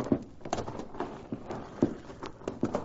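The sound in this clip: Horse hooves clip-clop as a rider mounts up and departs in a western scene: several irregular, moderately loud hoof strikes spread unevenly across a couple of seconds.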